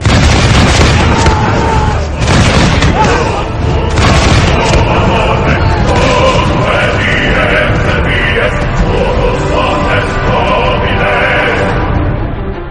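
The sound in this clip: Gunpowder weapons fire volleys during a battle in Flanders, with loud booms and bursts piling into a dense, continuous roar of heavy, overlapping blasts that never lets up.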